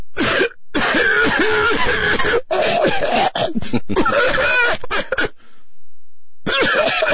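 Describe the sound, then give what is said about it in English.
A woman's prolonged coughing fit while giving a commencement speech: harsh, loud coughs in several rapid bursts separated by brief pauses, mixed with throat clearing and strained vocal sounds. “Here's she had a coughing fit.”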